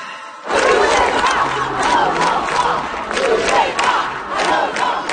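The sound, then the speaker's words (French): Crowds of protesters at demonstrations across France roar, chant and shout in a dense, loud mass of voices that swells in rhythmic surges throughout. “ce que vous entendez, ce sont les manifestations des derniers jours en France.”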